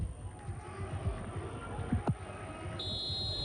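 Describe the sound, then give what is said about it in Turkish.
A referee blows the final whistle at a Turkish league football match in Istanbul: one sustained, steady, high-pitched blast that starts late and continues to the end, over constant background noise. “Atilla Karaoğlan son düdüğü çalıyor. Mücadele sona eriyor.”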